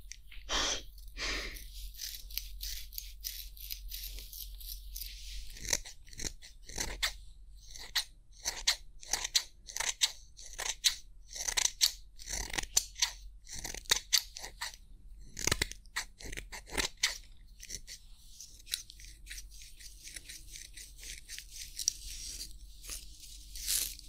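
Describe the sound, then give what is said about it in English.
Scissors cutting hair make many quick, crisp, faint snips. Some come in rapid clusters and others are spaced apart. “I can never do anything like that, which is why I'm cutting hair.”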